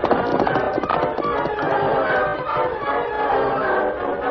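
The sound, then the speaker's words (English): Horses galloping while escaping a posse in an old western chase, their hooves making a dense, steady, rhythmic clatter that stays loud and continuous throughout, with no voices. “the Lone Ranger and Toto rode at a gallop for some time”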